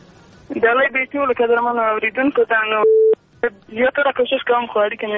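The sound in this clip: A telephone line tone after a call is disconnected: a brief, steady, loud electronic tone heard between stretches of talk.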